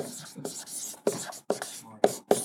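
A dry erase marker writes on a whiteboard in a quick series of short, squeaky, scratchy strokes, each one sharp at its onset.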